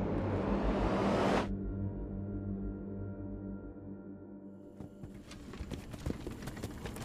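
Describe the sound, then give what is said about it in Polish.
Hooves clop steadily as a horse pulls a barred wagon over a bumpy forest road. A low rumbling drone runs throughout, and the clopping grows distinct in the latter half after an early whooshing noise cuts off. “Wóz z kratami przemierzał wyboje leśnej drogi.”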